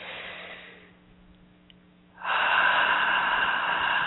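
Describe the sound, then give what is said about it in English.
Deep breathing during a guided relaxation exercise, in through the nose and out through the mouth: a soft inhale, a quiet pause, then a long, loud, steady exhale that carries to the end. “taking some nice deep breaths in through the nose, out through the mouth, nice and deep.”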